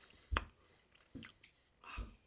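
Faint chewing while eating pizza, with three soft, moist bites spaced apart against near silence.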